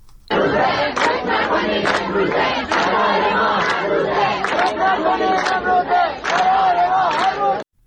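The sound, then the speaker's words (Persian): Students chant protest slogans at a university in Kermanshah, Iran: a loud, dense crowd of voices shouting in unison almost without a break, with one brief dip near the end before the chant resumes. “یکی از شعارهای دانشجویان در دانشگاه رازی کرمانشاه را می‌شنوید.”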